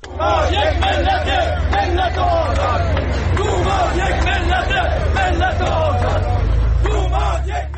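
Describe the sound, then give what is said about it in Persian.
Social security retirees chanting slogans at a protest rally in Ahvaz over living conditions: a loud crowd of many voices shouting in rhythmic unison, with steady babble and a low rumble beneath. “این صدای بازنشستگان تأمین اجتماعی است در اهواز که برای بهبود وضعیت معیشتی تجمع کرده بودند و در حمایت از توماج صالحی شعار سر دادند.”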